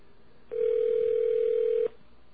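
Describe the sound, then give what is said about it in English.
A telephone line tone sounds while a call is placed back to a disconnected caller: one steady, even mid-pitched tone lasting under one and a half seconds, alone over faint line hiss with no voices. “So let's call him back and see if we can establish communications and hook him into this conversation.”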